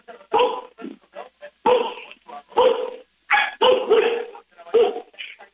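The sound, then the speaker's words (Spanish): A dog barks again and again in many sharp, loud bursts, some clustered tightly and a few shorter, yippy ones between, with brief silences separating the groups. “Ya deja de ladrar”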